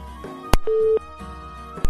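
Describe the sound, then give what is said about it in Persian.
A telephone tone after a call drops: one short, steady, mid-pitched beep set between sharp clicks, over a faint tonal background. “فکر میکنم تماس استاد عبدالقدوس هم قطع شد متاسفانه”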